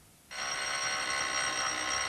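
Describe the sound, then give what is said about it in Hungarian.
A telephone bell rings in one continuous, bright metallic burst of about two seconds. It starts abruptly and holds steady to the end. “akkor most a telefon. Telefon? Telefon. Telefon! Ja, a telefon!”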